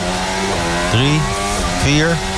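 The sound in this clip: A racing car on hard tyres entering a tunnel: a loud, buzzing engine note with strong harmonic tones that climbs in pitch, broken by two sharp gear shifts.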